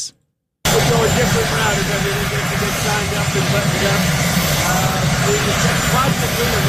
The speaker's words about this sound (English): I apologize for the helicopter noise behind this comment, but you should be able to make it out.